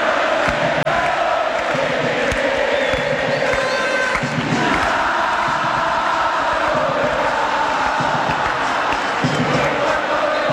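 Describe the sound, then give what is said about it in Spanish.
Olimpia football fans chanting in the stadium, a loud, continuous wall of massed voices that holds without clear breaks for about ten seconds. “Canta el público de Olimpia.”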